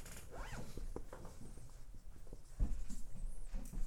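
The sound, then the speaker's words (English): Writing as notes are jotted down: a run of short, scratchy strokes, with a squeaky stroke that rises and falls near the start. The strokes are steady and moderately loud, with no talking. “So let me write this down. There's a beginning.”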